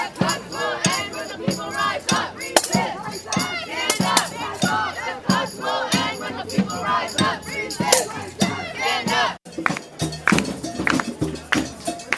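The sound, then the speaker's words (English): A protest crowd at the Bloombergville encampment in New York, against budget cuts, shouts and chants loudly with many voices, in a continuous surging roar that briefly drops out near the end. “And just as we learned from Wisconsin, we're building protests right here. So now, let's go to the Bloombergville with New Yorkers against the budget cuts.”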